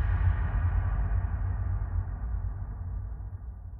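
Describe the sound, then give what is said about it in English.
A cavern kicker sound effect delivers a long, deep reverberating boom that opens at full strength, then slowly decays as its rumbling tail rolls on to the end. “So I added another sound effect, which is called a cavern kicker. And it sounds like this.”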